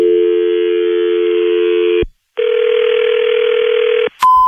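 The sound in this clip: A telephone dial tone sounds as a loud, steady hum, breaks off into a short silence, then returns as a second steady tone before a brief, higher beep cuts in at the end. No voices are heard.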